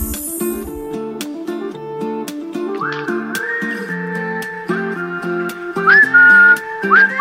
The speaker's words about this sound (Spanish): Pero como me gusta y que puedo silbar